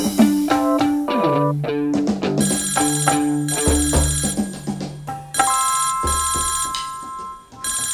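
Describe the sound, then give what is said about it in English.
A lower-pitched phone ringtone plays a loud melodic pattern of bright electronic tones that repeats steadily, with no voices over it. “I answered the phone and it was just a lower pitched ringtone.”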